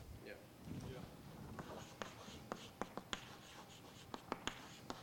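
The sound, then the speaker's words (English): Handwriting by hand during a spoken religious lesson, heard as a faint series of short, sharp pen strokes and taps, some in quick clusters, with a voice talking quietly underneath. “Sorry if you can read what I'm writing.”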